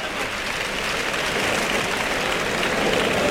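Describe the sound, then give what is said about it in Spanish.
A bullring crowd gives an ovation to bullfighter Roca Rey: dense, continuous clapping and crowd roar that fills the whole stretch at a steady level and swells slightly toward the end. “El público que ovaciona Roca Rey.”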